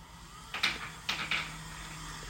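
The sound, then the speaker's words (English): Small motor of smart window blinds closing, heard as a faint mechanical whir with a few soft knocks and rattles as the blinds move. “You notice that the HomePod didn't respond, but you probably could hear the little motor going in the background and my blinds just closed.”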